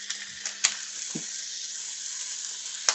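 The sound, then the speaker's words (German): Duck breast frying in a pan gives a faint, steady high hiss of sizzling fat, broken by a couple of sharp spattering pops. “Wir werden jetzt nämlich die Entenbrust soweit erstmal fertig anbraten und sie dann spritzt, diese kleinen. Spritzt!”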